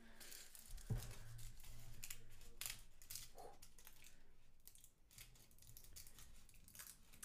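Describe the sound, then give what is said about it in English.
Aluminum foil is peeled from a 100 gram Lindt dark chocolate gold bunny and torn slightly, giving faint, irregular crinkles and rustles with a brief sharper snap near the start. “I would more call it a defoiling experience. Okay, I ripped it a little bit”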